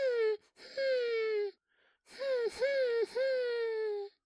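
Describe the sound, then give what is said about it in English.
A human voice imitates a puppy whining with a few drawn-out, high, nasal whimpers that waver and break off. A longer later run dips and swells repeatedly. “the whining of a puppy”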